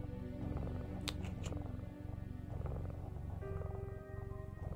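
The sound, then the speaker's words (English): A cat purring while being scratched, giving a steady, continuous low rumble that holds at a fairly even level through the whole clip. “after a little bit of scratching, it begins to purr”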